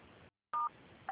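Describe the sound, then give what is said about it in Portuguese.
Telephone keypad tones, two short beeps, sound as a Claro customer's call is transferred to quality control. They are faint and come after a brief silence, with low line hiss around them. “peço que aguarde em linha, que eu vou transferir o contato Claro”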